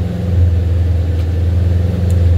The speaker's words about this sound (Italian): sto girando a 1500 giri ragazzi prende come tocchi l'acceleratore prendi i giri in maniera esagerata